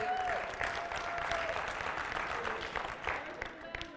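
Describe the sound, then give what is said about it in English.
A church audience clapping hands in steady, continuous applause, a dense patter of many claps sustained at an even level throughout. “And every time you put those hands together like that, it's like you're just squeezing demons and devils right out of business.”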